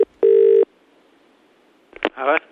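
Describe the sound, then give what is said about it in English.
Telephone tones as a call is placed: a brief tone, then a steady beep of about half a second and a stretch of quiet line hiss before a voice speaks at the end. “So, we gave him a call as well.”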